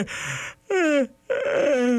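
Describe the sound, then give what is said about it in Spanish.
Yawning, heard as three drawn-out voiced groans in quick succession, each sliding downward in pitch, loud and alone. “Y como dicen que el bostezo se contagia”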